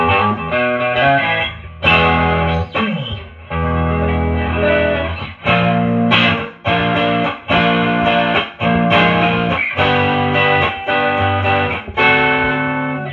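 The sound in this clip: Strummed chords ring out from an electric guitar on its neck pickup, slightly out of tune, with many loud, evenly spaced strokes and sustained full-bodied chords played alone.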